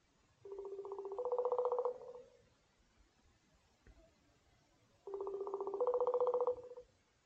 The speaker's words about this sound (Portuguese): Ou, ou mais, até, olha, até vou ligar, vou fazer aqui uma chamada no instante. Uma chamada no instante.